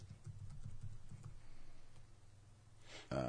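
Typing on a computer keyboard to enter a search, a quick run of many soft clicks during the first second or so, then a quieter, steadier stretch.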